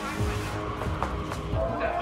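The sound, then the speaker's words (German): A car pulls out of a parking garage with squealing tires and a roaring engine, one loud, continuous burst of vehicle noise. “Der ist mit seinem Wagen abgehauen.”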